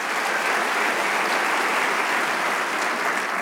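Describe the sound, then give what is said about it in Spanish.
An audience applauds during a church worship service, giving uniform, dense clapping sustained across the whole clip with no voices. “Le damos un aplauso al Rey de Reyes.”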